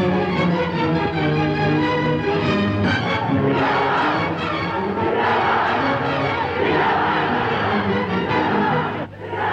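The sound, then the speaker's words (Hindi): Noisy crowd of impatient shareholders waiting outside for their houses to be built, a loud, steady roar of many overlapping voices that dips briefly near the end. “शोर कैसा? ये सब आपके हिस्सेदार हैं शेख साहब, जिन्होंने आपको 100-100 रुपया दिया है घर बनाने के। इतनी बेचैनी से अपने जनता घर बनने का इंतजार कर रहे हैं”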